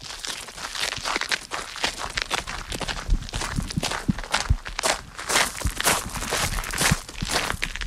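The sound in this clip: Many irregular footsteps cross a floor and climb into a small, narrow tower staircase at the Château de Saint-Point, scuffing and crunching steadily throughout.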